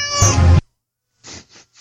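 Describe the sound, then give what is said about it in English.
A cat meow sound effect: one loud, drawn-out harmonic meow, then a pause and three shorter, softer calls in quick succession. “They get a meow. Very rare.”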